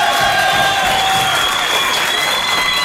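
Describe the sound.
Sustained applause from an audience warmly greeting performers on stage: a dense, even clatter of many hands clapping at steady loudness throughout, with no voices standing out.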